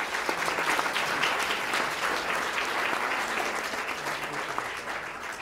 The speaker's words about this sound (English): Give them another round of applause.